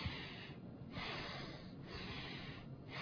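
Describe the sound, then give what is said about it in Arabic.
A voice imitates breathing in and out with quiet, rushing breaths separated by brief pauses. “يعني انت مش قاعد تعمل كده شهيق زفير”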